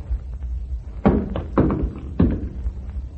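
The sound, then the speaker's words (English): A gun dropped to the floor lands with three dull thuds spaced about half a second apart over a low background rumble. “Not till you drop your gun. You heard me. We don't talk till you drop your gun.”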